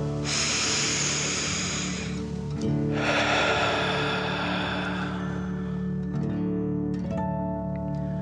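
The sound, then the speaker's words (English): Deep breathing in and out during a calming meditation: two long, airy breaths, each lasting a couple of seconds, over a steady soft tonal backdrop with no talking. “take another deep dragon breath. Fill up your belly in and out.”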